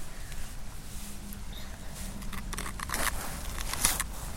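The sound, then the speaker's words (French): Stone rubbed against another stone to grind powder: a soft, continuous gritty scraping with faint crackles, steady and quiet throughout, turning slightly rougher in the second half. “En frottant cette pierre contre la pierre, je vais faire de la poudre.”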